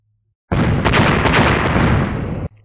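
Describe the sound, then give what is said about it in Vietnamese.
Loud explosion sound effect in a fantasy battle scene, heard as one sustained roar of dense noise about two seconds long that starts abruptly and cuts off sharply, alone without talk. “Sau 4 tiếng nổ long trời vang lên”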